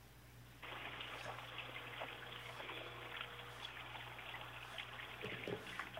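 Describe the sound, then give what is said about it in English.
Running water from a tap as someone washes their hands: a steady, even hiss that starts after a brief quiet moment and keeps flowing without a break. “Are you washing your hands? Because that's not a very cool thing to do.”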